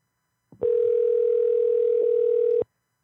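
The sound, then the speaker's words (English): A single steady electronic telephone tone, about two seconds long, with a sharp click at its start and end. It sounds fairly faint and stands alone with no voices. “Answer the phone.”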